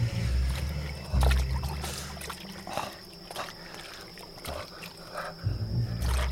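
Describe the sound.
Water splashes and sloshes as a man wades into a mud-filled canal up to his chin, with trickling and a few louder surging swells, no voices.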